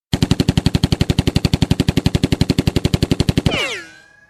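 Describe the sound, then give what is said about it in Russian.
Gunfire given as coming from a Colt .45 pistol, heard as a long string of rapid, loud, evenly spaced shots. A ringing tail with falling tones fades out after it. “Достал он свой кольт 45-го калибра и пристрелил Кощея в голову.”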